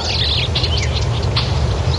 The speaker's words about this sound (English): Is that a brown-headed nuthatch? No, I think it's a pine.